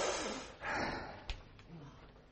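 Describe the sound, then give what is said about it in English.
A group of people standing together take a deep breath in, a soft breathy rush of air that swells and then fades, followed by a brief click and quieter breathing. “Why don't we just all stand, take a deep breath in.”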